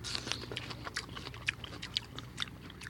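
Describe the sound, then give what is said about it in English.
Biting and chewing an unripe green star fruit, with faint wet crunches and mouth sounds repeating in an irregular rhythm. “In fact, I have some star fruit. So now we're going to try star fruit that's not quite ripe.”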